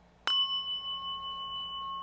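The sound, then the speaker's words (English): A mindfulness bell phone app sounds a single soft chime, struck once, then rings on in a steady, bright tone that slowly fades. The chime is faint and heard alone. “I have an app on my phone called a Mindfulness Bell app. There's plenty of free ones out there. I set it to go off every 15 minutes, and it's not an alarm. It's just a chime. It sounds something like this.”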